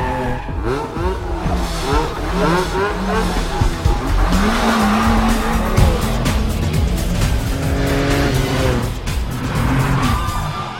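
Fast racing cars roar past with skidding, squealing tires. Engine noise stays loud and continuous, and many sharp tire squeals cut through it.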